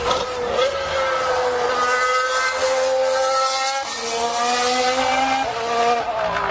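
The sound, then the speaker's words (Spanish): A Mercedes Formula 1 car's engine roars loudly and continuously, a high-pitched, harmonically rich whine that holds steady, dips briefly and then climbs again. “vamos a escuchar atronando al Mercedes de Hamilton.”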